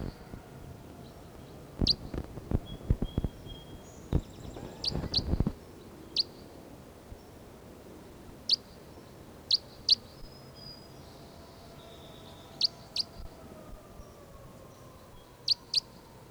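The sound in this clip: Short high bird chirps ring out one at a time at uneven intervals over a quiet, faint background. A few low thumps and rustles come early on.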